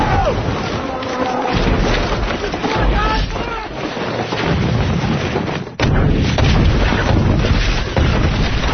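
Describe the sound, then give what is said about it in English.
Artillery fire sounds as a dense, loud barrage of rumbling booms and blasts, sustained throughout with a sharp heavier impact near the end, forming a continuous battlefield din. “Keep moving the artillery forward. Keep walking the artillery forward. Spread it out.”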